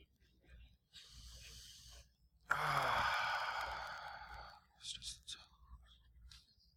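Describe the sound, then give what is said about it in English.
An audience taking a deep breath during a sermon: a soft inhale, then a long, louder collective exhale like a sigh, followed by a few faint breathy puffs. “Let's take a deep breath.”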